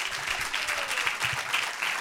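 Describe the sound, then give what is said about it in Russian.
An audience applauds children who have recited shlokas. The clapping is steady and dense and lasts the whole stretch without pause. “So let's give them also a clap. Давайте похлопаем очень громко.”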